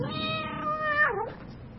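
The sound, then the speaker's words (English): A cat gives a single drawn-out meow that dips in pitch near the end before trailing off, heard alone over a low background rumble. “Leina ne la rona la gompieno le bidiwa katse e bidiwang Kitty”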